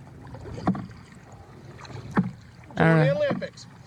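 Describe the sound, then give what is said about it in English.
Oars knock against both sides of a rowboat with each stroke, giving two hollow, dull thumps a little over a second apart, followed by a short vocal sound over faint wind. “He can't fucking row without hitting both sides of the fucking boat every time, man.”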